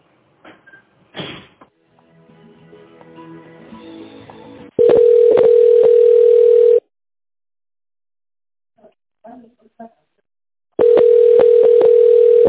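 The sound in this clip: Telephone ringback tone heard while a call is transferred to a department head: two long, steady, buzzing tone bursts separated by several seconds of silence, with faint clicks and handling noise before the first.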